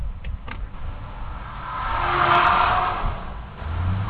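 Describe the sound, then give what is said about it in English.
A police squad car speeds past on the right during a dash-cam standoff: a broad engine and road roar swells to a loud peak midway, then eases off, with no siren. “That is the noise of another squad car that passed this officer on the right and just ran the guy down.”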